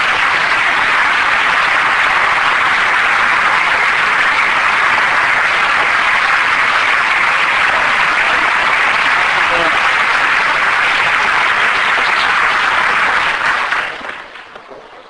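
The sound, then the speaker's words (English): Dense standing-ovation applause from an audience welcoming a speaker holds steady for about thirteen seconds, then dies away quickly. “I usually get the standing ovation afterwards. This is the first time I'm getting it beforehand.”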